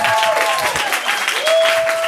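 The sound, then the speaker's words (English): Applause from a talk show studio audience comes in a short, fairly loud burst of mixed clapping lasting about two seconds. “Are the clappers clapping people watching English Teacher?”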